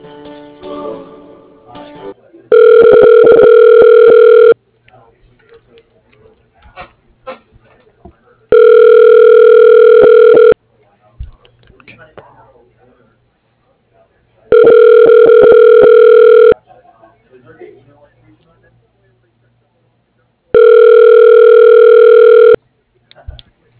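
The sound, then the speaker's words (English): A telephone ringback tone plays while a call is transferred to another person's line. There are four loud, steady buzzing tones, each about two seconds long and spaced evenly about six seconds apart, with faint low noise between them. “I can connect you to Kayvon. He may be able to assist you.”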